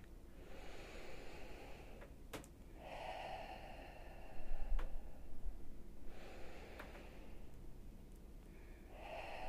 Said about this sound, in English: Let's take three deep breaths together.